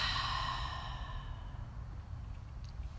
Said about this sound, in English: 2 more times. Let's breathe in and out.